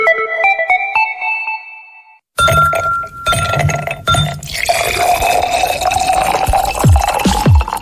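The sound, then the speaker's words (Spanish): Cold iced tea poured over ice cubes into a glass. Bright, ringing clinks of ice against glass come first, then a splashing pour whose tone rises gently as the glass fills, with a few more clinks near the end. “Servirse un Mr. T frío con hielos también puede sonar así de delicioso.”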